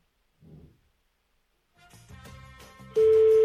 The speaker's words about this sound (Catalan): S'ha posat a trucar el telèfon a alguna altra persona, no sé per què.